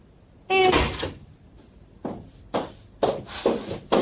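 A door being opened in a home: a louder scraping burst at first, then several short clunks and rattles spaced about half a second apart.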